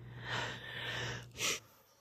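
A person breathing in and out while sitting in a parked car at Wilmore Cemetery in Kentucky: a long, airy, drawn-out breath, then a shorter, sharper burst of breath before it fades.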